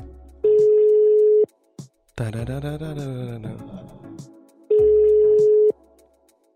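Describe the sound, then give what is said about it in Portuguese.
Telephone ringback tone from a call being placed, two long steady tones about a second each, separated by a pause filled with a brief wavering vocal sound. “Vamos ligar para ele.”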